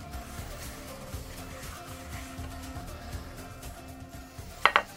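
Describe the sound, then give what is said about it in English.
A serving plate is set down on a kitchen bench, two sharp clinks near the end over faint, steady background noise. “So I'm going to put these little knives down here, and I'm going to bring up for you my serving plate. Let's wipe down this bench here.”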